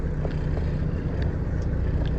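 A truck engine idles with a steady, low, rough rumble that continues without a break, heard from inside the cab.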